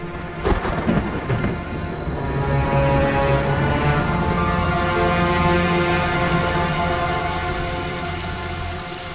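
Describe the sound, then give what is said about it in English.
Thunder echoes and re-echoes through a vast, empty stone cave chamber over steady rain, opening with a sharp crack and swelling into a loud, sustained, rolling rumble that eases only slightly toward the end. “The thunder echoes and re-echoes in the vast, empty stone chamber, making a sound that is quite overwhelming.”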